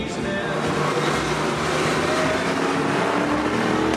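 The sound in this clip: A Jaguar sedan is driven fast on a racing circuit, its engine a loud, steady drone with a faint tonal whine that holds throughout.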